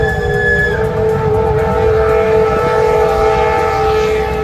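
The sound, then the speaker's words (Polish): A steam locomotive passes at full power during a locomotive parade, a loud unbroken roar of steam and machinery carrying steady whistle-like tones throughout. “Lokomotywy wykonują kilka przejazdów z pełną mocą w obie strony w różnych konfiguracjach i trzeba przyznać, że robi to piorunujące wrażenie.”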